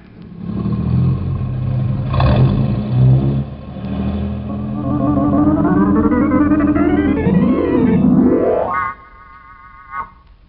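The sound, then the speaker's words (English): A car engine, done as a sound effect, accelerates and then brakes to a complete stop: the loud revving climbs steadily in pitch for several seconds, then drops away sharply as the car slows. “your car reaches the yellow and black sign, caution, stop ahead. You will then brake your car to a complete stop with the front wheels as close to the diagonal yellow markers as you can possibly get them. Ready? Get set? Go!”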